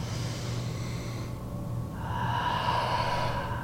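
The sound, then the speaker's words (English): A deep breath drawn in and then exhaled out through an open mouth during a guided yoga session, a steady breathy rush of air that grows fuller and louder in its second half, with no talking. “Take a deep breath in. Open your mouth, exhale it out. And do it again, inhale.”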